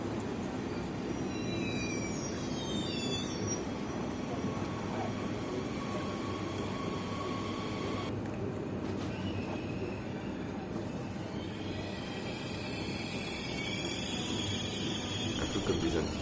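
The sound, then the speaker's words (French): Trains pass near a railway station with a steady rumble throughout, high squeals from the wheels, and noise that grows louder over the last few seconds. “on est à la Marelle, près de la gare, donc il y a plusieurs sortes de trains qui passent”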